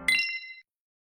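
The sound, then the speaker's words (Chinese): A single bright metallic chime marks the hour as a radio time signal, striking once with a clear ringing tone that fades out within about half a second and leaves silence. “准确对时，现在是北京时间1点整。”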